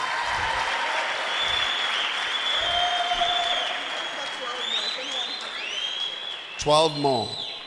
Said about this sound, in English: Clap your hands again.